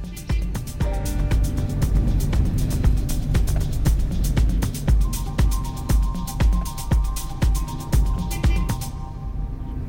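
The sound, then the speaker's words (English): A car drives inland on a road in Luxor, Egypt, with a continuous low rumble and a steady run of sharp, repeated clicks and rattles over it. “So we're driving inland towards the mountains. There's no rules on the road here”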